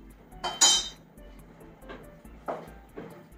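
Pots and utensils clink while crushed tomatoes are added to a sauce, with a handful of light metallic clinks and taps, scattered and fairly faint against a quiet background.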